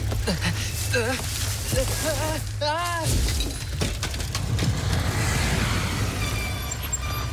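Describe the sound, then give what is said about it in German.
A car forced off the road crashes into a ditch: engine rumble and raised voices lead into a loud crunching impact with shattering glass, followed by scattered rattling and clattering. “Pass auf! Da vorne, da fängt ein Graben an!”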